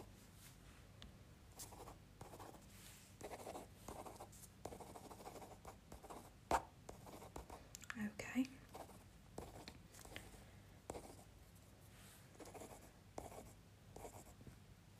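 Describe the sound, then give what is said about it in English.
Notes are written by hand, with pen strokes scratching in quiet, irregular bursts throughout and a soft voice at times. “I'll also write these down.”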